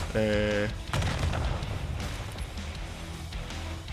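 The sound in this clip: Gunfire from a deployed sentry machine gun in a video game: a brief tonal beep, then dense, rapid bursts of shots rolling on loudly to the end.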